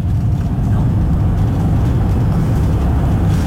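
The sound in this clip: A car is driving, heard as a steady, loud, low rumble of engine and road noise that stays even from start to finish.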